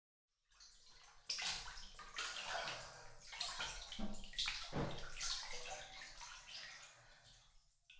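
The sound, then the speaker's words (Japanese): Bath water sloshes and splashes in a bathtub, a continuous, faint wash of rippling and gurgling water that rises in the first second and stays fairly steady. “そしたら先に湯船に浸かっててね。私も体洗ったらすぐに入るから。”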